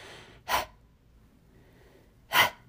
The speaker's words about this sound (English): I'm asking you to breathe in and then push the air out just like a hard pant. So you might go,